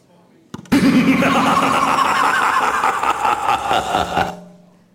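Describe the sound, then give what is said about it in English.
Prize wheel spun during a live Halloween special show, giving a loud, sustained rattling clatter of ticks that become more spaced toward the end before stopping abruptly. “Can we get the wheel up? Who am I going to go to? What year and what course? Spin the wheel, please.”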